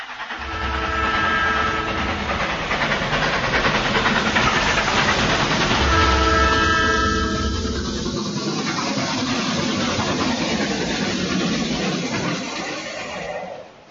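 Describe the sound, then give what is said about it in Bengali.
A train starting to move and pulling away, heard as a loud, steady rumble with droning engine tones throughout. The deepest part of the rumble drops away after about eight seconds while the broader noise continues. “খেয়াল হল train নড়ে উঠতে, তাই তো train ছেড়ে দিল।”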